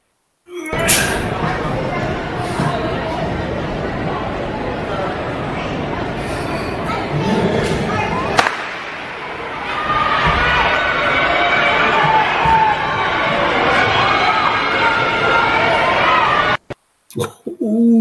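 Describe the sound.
A crowd at a 60-meter track race cheers and shouts, heard through a played video: a loud, continuous roar of voices with a brief lull midway, then cheering again before cutting off near the end.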